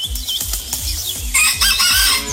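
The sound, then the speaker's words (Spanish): A small rooster crows in a bright, ragged call that rises at the start and stays high and loud to the end of the short clip. “No, no, pero va a tocar conseguir un gallo más, como más grande. Este gallito está, pero es de esos gallos chiquiticos”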